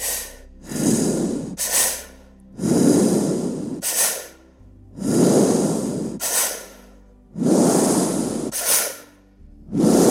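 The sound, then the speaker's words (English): Mouth breathing during a guided breath-work session, five long airy, hissing breaths in a steady rhythm, each paired with a shorter, sharper puff of air. “We're starting our mouth breathing now.”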